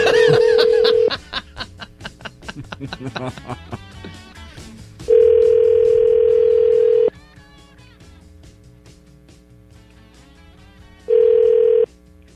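Telephone ringback tone on a call placed to a rural number: steady, even buzzing tones, one at the start, a full one in the middle and a shorter one near the end, with long pauses between them and soft snickering after the first.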